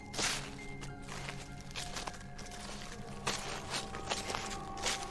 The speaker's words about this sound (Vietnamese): có tiếng bước chân sột soạt dẫm lên lá cây đang tiến đến gần